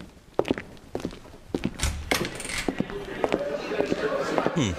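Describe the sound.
Footsteps of a couple walking into a bar in a radio drama, heard as a few uneven, sharp steps and thuds that grow denser and more regular as the walk goes on.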